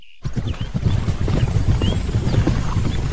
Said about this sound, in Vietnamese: bỗng nghe thấy tiếng gió ngựa, mười mấy người từ xa đuổi tới